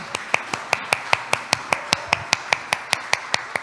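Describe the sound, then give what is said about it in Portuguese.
An audience claps its hands at a talk in a terreiro, with many sharp, evenly spaced claps at a steady, fairly quick beat over a light background hiss. “Vamos bater palma para a mãe Flávia.”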